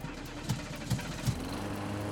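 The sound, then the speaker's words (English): Electric motor chugging to life on a freshly rewired, hand-cranked machine: a steady low rumble with three evenly spaced heavier thumps, then an even drone. “A grin spread across his face as the motor chugged to life.”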